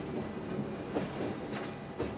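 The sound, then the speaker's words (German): An electric mountain train running at up to 70 km/h toward Chamonix gives a faint, steady rumble with soft rhythmic clatter from the wheels. “Mit maximal 70 Kilometern pro Stunde steuert der Lokführer den Zug in Richtung Chamonix.”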